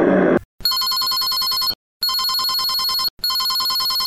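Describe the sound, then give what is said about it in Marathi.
A telephone rings on an outgoing call. Loud electronic trilling rings repeat with short silent gaps between them, and the last ring is cut off. A brief burst of noise comes first. “मी लगेच अंगणला phone करून सांगतो.”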